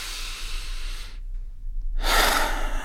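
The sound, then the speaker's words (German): A person takes a deep breath in and out, an airy, hissing inhale followed by a brief silent pause and then a longer, slightly louder breathy exhale, with no talking. “atme einmal tief ein und aus”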